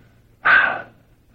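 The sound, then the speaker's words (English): A voice imitates breathing out onto someone with one short, forceful breathy exhale that swells quickly and tails off, alone in near silence. “when he took the apostles apart, he breathed on them like this.”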